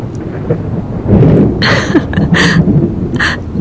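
Thunderstorm with rain: a deep rumble swells after the first second, while recurring bursts of hissing rain patter continue to the end.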